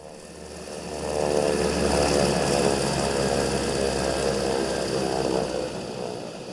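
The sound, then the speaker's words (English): An aircraft lands at a dusty refugee camp, its engine giving a loud, steady, droning roar with a low hum underneath that holds throughout. “Wheels down, Mia Farrow has arrived in Dadaab.”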